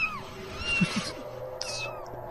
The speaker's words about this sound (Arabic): صوت قطط.